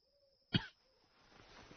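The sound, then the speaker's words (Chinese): A single sharp cough from a man, one brief loud burst standing out against near silence, followed by faint low rustling. “范蠡咳嗽一声说：”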